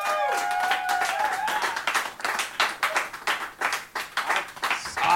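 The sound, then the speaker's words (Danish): An audience at a comedy festival show applauds two arriving guests. Loud, dense clapping swells right after a voice at the start and continues in uneven, rippling waves. “Giv en kæmpe stor hånd til Victor Lander og Anders Stjernholm!”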